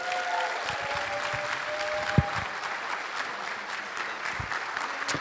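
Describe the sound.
Audience applause welcoming a guest speaker to the stage at a summit gathering: steady, dense clapping fills the whole stretch, with one sharp thump partway through.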